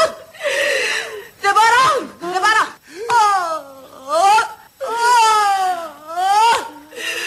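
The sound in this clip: A person wailing and sobbing: a series of drawn-out, moaning cries whose pitch swoops up and down, broken by short gasping pauses between bursts.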